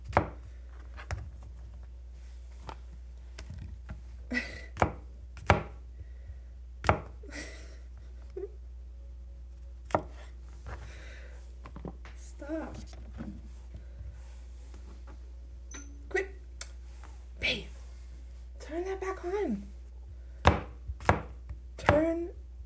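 A knife chops food on a board while someone cooks at a stove: many irregular, crisp chopping knocks with short pauses between bursts, at a moderate level.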